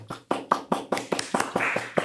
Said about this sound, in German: hier wird ein Trommelwirbel und Klatschen eingeblendet.